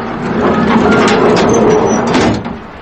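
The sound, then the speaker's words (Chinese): A small iron door is pulled open with a sustained, rough scraping rumble that lasts about two and a half seconds before easing off. No voices are heard. “便拉开门出来”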